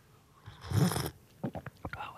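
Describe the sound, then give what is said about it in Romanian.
A loud gulp while drinking tea, one short full-bodied swallowing burst, followed by soft talking. “Mamă, ce înghițit puternic.”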